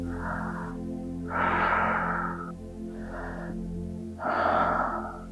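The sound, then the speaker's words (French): Four slow, deep breaths, in and out, during a guided breathing exercise before breath-holding. Each long airy rush alternates with the next over a steady humming background. “Encore 3 respirations. Inspirez et relâchez.”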